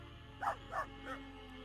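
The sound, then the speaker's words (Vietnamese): A dog barking as it scratches at the ground with its front paws under a mango tree in a garden: three short, moderately faint barks in quick succession over a steady low hum. “Vừa cào nó vừa sủa lên vài tiếng: Vàng, Vàng ơi.”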